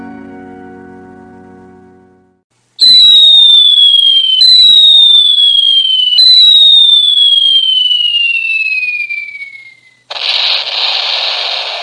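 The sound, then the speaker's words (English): Video game shooting: after a low hum fades out, three loud synthetic laser-like shots fire in sequence, each a sharp blast trailed by a falling whistling tone, then a harsh burst of static noise. “Sounds like a video game to me. Yeah. Somebody's shooting and trying to win the score”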